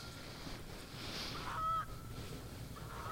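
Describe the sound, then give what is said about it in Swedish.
Canada geese honk as they fly overhead. A few nasal calls rise from a steady low background, the loudest one near the middle and a fainter one at the very end. “Oj, vad är det som låter här nu? Det är kanadagäss som just flyger över oss.”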